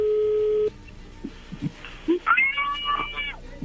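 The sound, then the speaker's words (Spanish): A telephone call connecting: a steady ring tone holds briefly and cuts off, then faint clicks and a few short warbling, chirpy line tones follow. “ya entra la llamada”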